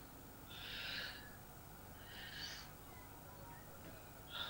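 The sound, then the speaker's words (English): Deep breathing in and out from a person who says their chest had felt heavy before a prayer. A few soft, airy breaths are heard alone, faint and slow, with pauses between them. “Can you breathe deeply? Breathe in, breathe out.”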